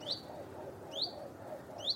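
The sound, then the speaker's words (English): A robin calls three times, each a short, high chirp, evenly spaced about a second apart, faint and alone. “That is, according to Chirpomatic, my bird call identifying app, not sponsored by them, a robin or a goldfinch.”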